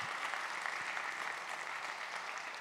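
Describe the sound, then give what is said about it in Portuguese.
Applause from an audience at a morning church talk, clapping in honour of Jesus. A thick, steady patter of many hands that holds at an even level throughout. “Podem aplaudir a Jesus?”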